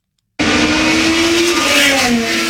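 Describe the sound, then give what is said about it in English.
A race car roars through a grand prix in the nation's capital: a sudden, loud, continuous engine whine that starts abruptly and drops slightly in pitch toward the end. “High Octane Racing taking over the nation's capital for the historic Freedom 250 Grand Prix. From the speed to the deafening noise”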